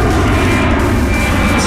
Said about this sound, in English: this is the sound of you hopping on an airplane to travel to Chile